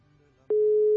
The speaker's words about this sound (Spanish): Buzón de voz. No, carnal, las desvía.